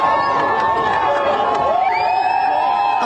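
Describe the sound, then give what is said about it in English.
Adoring fans cheer at the UConn men's basketball championship parade in Hartford, Connecticut, a steady dense roar of voices with a few higher shouts and a rising tone near the end. “Do they love the UConn men's basketball team? That's the sound of the adoring fans at the championship parade today in Hartford, Connecticut.”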